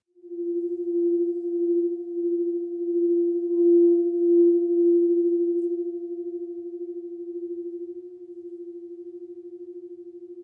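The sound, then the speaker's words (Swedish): A crystal singing bowl, made of crystal rather than metal and held by a handle like a large vase, rings with a steady sustained tone. The tone has a gentle pulsing wobble and eases slightly softer toward the end, with no talk. “Men de här skålarna är inte av metall. Det här är kristallskålar.”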